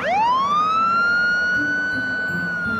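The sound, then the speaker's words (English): A police car siren wails as the car pulls in behind someone. The loud tone sweeps upward at the start, then holds a steady high pitch over a low road rumble. “the police car pulls in behind her, following with flashing lights”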